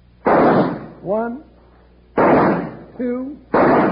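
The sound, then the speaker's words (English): Three pistol gunshots as Wild Bill Hickok shoots leaves off a plant, each a sharp, loud bang with a short decaying tail, spaced unevenly, with brief tonal sounds between the shots. “1, 2, 3. Bill, you did it. Now, that's shooting.”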